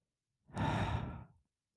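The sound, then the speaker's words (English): A man taking one deep breath, a single soft, airy sigh lasting about a second, heard alone in silence. “He breathed deeply, trying once again to summon her.”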